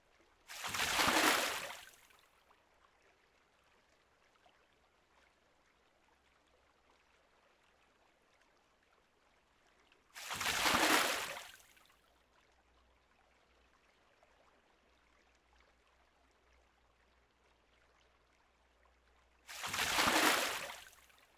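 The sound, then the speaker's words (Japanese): Water poured over someone to rinse them off: three separate splashing pours, each lasting a couple of seconds, spaced by long quiet pauses with no voices. “わかった。じゃあ流しちゃうね。”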